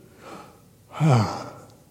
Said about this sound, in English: So again, deep breath.